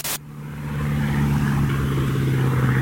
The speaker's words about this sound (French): Ce ronron, c'est le bruit du moteur du Spirit of Saint-Louis, l'avion de Charles Lindbergh.